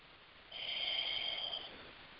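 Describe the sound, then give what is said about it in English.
A slow breath drawn in through the nose into the belly: one soft, airy nasal inhale lasting about a second, faint and hissy, with quiet stillness before and after. “it's just a gentle in through the nose, into the belly”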